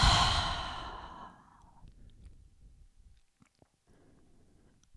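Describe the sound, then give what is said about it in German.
A slow, breathy exhale through an open mouth during a guided relaxation exercise, starting strong and fading gradually over about a second, followed by near-silence with a few faint small mouth and body noises. “Und dann öffne deine Lippen, öffne den Mund und atme wieder alles aus.”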